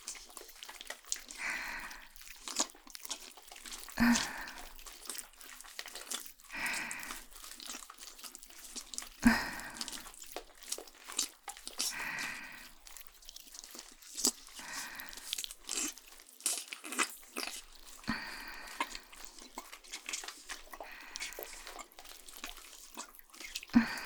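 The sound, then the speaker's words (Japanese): Food is eaten with many crisp crunches and bites at irregular intervals, some with a wet, dripping quality, fairly quiet and with no talk. “このまま食べてしまおうかしら。”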